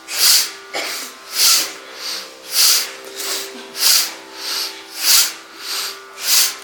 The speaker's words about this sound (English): Yes, you want to breathe out very fully, not half.